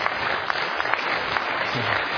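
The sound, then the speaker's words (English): An audience claps during a sermon. The brief, steady applause is made of many overlapping hand claps at an even level. “You're clapping now.”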